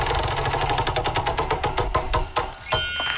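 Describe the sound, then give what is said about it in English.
A prize wheel spins for a game show, its rapid ticking clicks spacing out and slowing until it stops, followed by a bright ringing tone. “We need to spin the wheel to find out what game we're playing today. You got the wheel? Let's spin it.”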